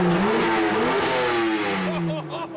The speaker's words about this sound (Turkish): motoru dinle